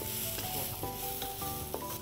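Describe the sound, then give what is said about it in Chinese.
Onions and chili peppers sizzle as they are stir-fried in a pan with salt. The frying crackle is faint but continuous, broken by soft scraping taps as the food is stirred. “这样要翻炒一下，放盐。”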